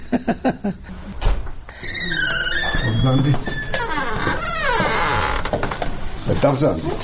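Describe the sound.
Creaking door of a room in a retirement home, a long drawn-out squeal with wavering, gliding pitch that swells and lingers for several seconds.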